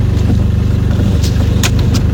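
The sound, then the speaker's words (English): A loud car engine during a three-point turn, a heavy low rumble that drones steadily throughout with a few faint clicks and knocks above it. “It is a very loud vehicle that we're listening to.”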